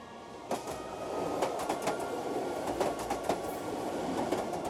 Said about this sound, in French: Arriva enfin le Breslar Express. La fumée qui s'échappait de la locomotive rouge envahit le quai.